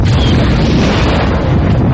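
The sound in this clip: Plasma blast striking a starship in a space battle, heard as a loud, dense roaring rumble that fills the whole moment without a break, like a sustained shuddering impact through the hull.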